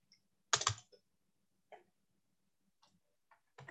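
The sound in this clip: Sparse, quiet keystrokes on a computer keyboard come as irregular clicks, with one short burst of rapid taps among single strikes and long pauses.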